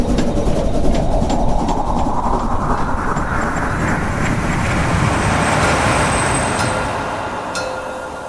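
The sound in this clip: A train runs on rails with a loud, continuous rumbling roar that stays steady throughout and eases slightly at the end.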